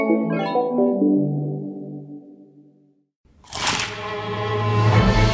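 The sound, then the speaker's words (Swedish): A crisp crunch from biting a McDonald's McCrispy chicken burger. One sharp, loud bite comes after a fading melodic tone and a brief silence, then sustained tonal sound follows. “Upptäck det vackra ljudet av McCrispy & Company för endast 89 kronor. En riktigt krispig upplevelse.”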